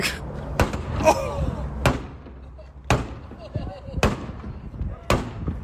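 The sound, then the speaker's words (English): A baseball bat striking a bulletproof vest rated against 9mm rounds: six sharp, hard impacts at uneven intervals, each a loud crack with a dull thud, while people talk and react between the blows. “But if someone comes and tries to attack you with a bat, let's see what happens.”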